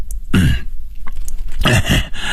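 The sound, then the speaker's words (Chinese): An old man lying in bed coughs, voiced by a narrator imitating the sound: two loud, harsh bursts of rough coughing and throat clearing separated by a short pause. “王四爷躺在床榻上咳嗽了几下”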